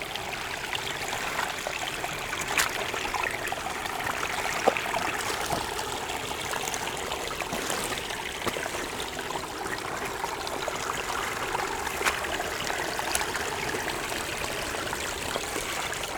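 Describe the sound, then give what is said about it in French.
A small spring trickles and flows with a continuous, soft babbling of running water and faint tiny splashes. It is steady throughout, with no voices. “Cette petite source qui s'écoule ravive-t-elle les envies de baignade?”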